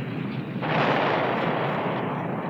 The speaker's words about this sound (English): That was one of the biggest explosions.